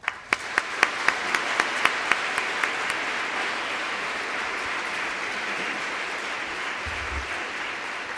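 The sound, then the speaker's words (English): Audience applause welcoming a panel of speakers: sharp individual claps at the start quickly merge into a dense, steady wash of clapping that carries on at an even level to the end. “If you could just join me in welcoming our panel.”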